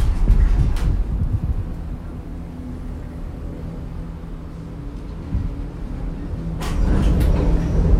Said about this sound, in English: And that's the sound of us in the turning station.